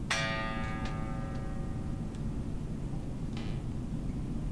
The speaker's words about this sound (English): It's still ringing. And it gets louder in waves, right?